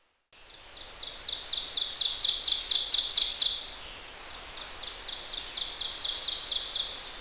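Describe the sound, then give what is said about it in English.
Rapid high-pitched cheeping from a bird in two runs of quick, evenly spaced chirps. The first run is louder and lasts about three seconds, and the second is softer, both over a steady background hiss. “It sounded like a cheeping bird.”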